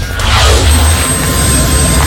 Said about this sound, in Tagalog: Mula Johnson Airport, lumipad ang helicopter ng Philippine Air Force papunta sa Balut Island sa Davao Occidental.